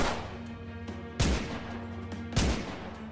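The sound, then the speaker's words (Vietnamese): Gunshots fired in quick succession: two loud, sharp blasts about a second apart, each ringing out over a steady low hum. “Ông Kỳ bóp cò nổ súng, bắn liên tiếp vào người lão Trực 3 phát đạn.”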